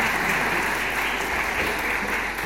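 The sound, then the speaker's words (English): A church audience in Ipswich applauds to welcome a new archdeacon, a dense, even roar of clapping that holds steady from start to finish. “Can I ask you to give a very warm welcome to our new Archdeacon Rhiannon and a big clap and a round of applause? Big applause.”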